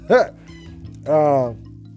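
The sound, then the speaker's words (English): Two whining cries from a pet dog in a basement: a short, high yelp-like call, then after a pause a longer, fuller whine that slowly fades, over a faint steady hum. “This dog, man. Let me apologize. This goofy ass dog.”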